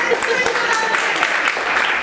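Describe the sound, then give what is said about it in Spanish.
Audience applause at a live talk, dense rapid clapping that stays steady and loud while voices carry on over it. “¡Bien! ¡Un aplauso!”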